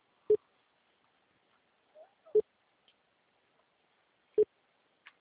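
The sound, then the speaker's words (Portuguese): Mobile phone ringing with three short low beeps spaced evenly about two seconds apart, faint, with near silence between them. “Tá ligando aqui, ó, no meu celular.”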